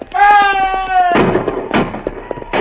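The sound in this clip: Gunshots in a radio drama scene of an Apache attack: a few sharp, loud bangs ring out after a long, sustained shouted voice, with crackling noise between the shots.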